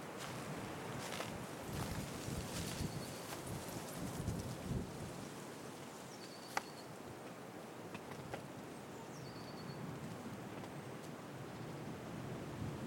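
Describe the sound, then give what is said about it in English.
Wind rustles dry leaves in springtime oak and beech woodland on a slope below a ridge in the Brecon Beacons, a faint, steady, hissing rustle with a few soft footsteps in the first seconds. “now descending, you hear the wind blowing dry leaves and the footprint.”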